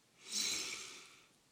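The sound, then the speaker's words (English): One deep breath drawn in through the nose: a soft, airy hiss that swells and then fades over about a second, faint and alone. “Take a deep breath in through your nose”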